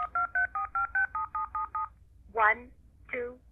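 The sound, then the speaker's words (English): Touch-tone dialing beeps from a handheld auto-dialer held to a telephone mouthpiece: a rapid, even string of about ten short, clear tones, followed by a voice speaking. “And not only does it dial, but it repeats the number that I'm dialing.”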